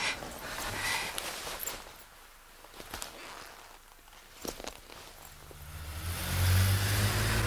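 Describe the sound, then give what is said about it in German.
A silver Mercedes car speeds up, its engine noise swelling into a loud, low rush toward the end after a quieter stretch with a few scattered knocks. “Kommt der silberne Mercedes angebraust.”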